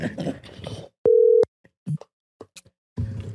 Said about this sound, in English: All right, last caller. Hopefully they answer.